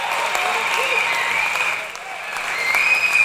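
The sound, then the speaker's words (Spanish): A studio audience applauds a quiz winner on a radio program with steady, dense clapping and voices mixed in. The applause dips briefly in the middle, then swells back up. “Aplausos para Manuel”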